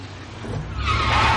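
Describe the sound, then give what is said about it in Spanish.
A patrol car reversing out of a warehouse: a broad engine and tyre rush grows louder and brighter over about a second, with a low rumble underneath. “El coche patrulla da marcha atrás y sale del almacén.”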